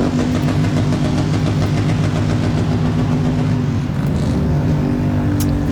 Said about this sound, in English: As for all the noise that the trikes are making here, they aren't moving that fast.